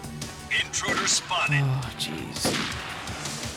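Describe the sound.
Gunfire in a shooter video game: a few sharp shots spaced irregularly amid busy game sound effects, with fainter pops and rumbling in between.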